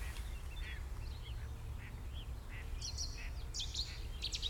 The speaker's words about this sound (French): Mésange charbonnière.